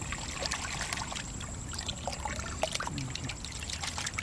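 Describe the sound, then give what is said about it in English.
Water poured and sloshed while muck is rinsed off a clod of marsh grass roots in a metal pail: a faint, continuous trickle with many small splashes. “he's working from the bottom up in a metal pail, he rinses muck off a clod of marsh grass roots in search of nematodes.”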